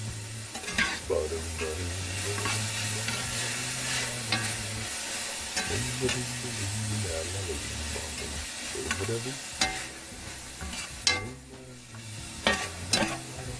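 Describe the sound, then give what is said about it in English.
Fried rice being stir-fried in a pan sizzles steadily while a utensil scrapes and stirs, with several sharper clanks and knocks growing more frequent toward the end. “Some fried rice for my family.”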